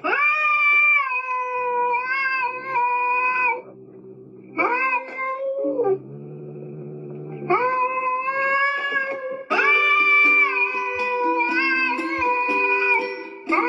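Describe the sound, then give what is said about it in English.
A human voice imitating a cat gives several long, drawn-out meows. The tone is loud and wavering, and one lower, rougher stretch sits in the middle between short pauses. “I can do a cat one. Me and the cat.”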